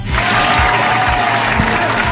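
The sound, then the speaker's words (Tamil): Loud audience applause for a man who played a game well, a dense, unbroken wash of clapping that holds steady from start to finish with crowd noise underneath. “இப்போ அண்ணா super விளையாண்டார்ல, அவருக்காக ஒரு கைத்தட்டல்.”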